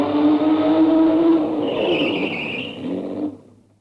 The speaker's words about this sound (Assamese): গাড়ী ৰখাচোন, গাড়ী ৰখা।